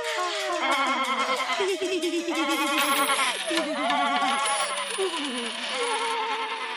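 Goats bleating: several wavering, quavering bleats overlap almost without pause, their tremulous pitch rising and falling continuously at a fairly steady loudness.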